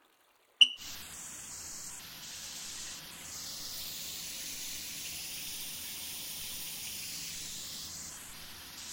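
A shower spray rinsing soap off a person's body after washing. It starts abruptly with a brief click, then runs as a steady, even hiss of water.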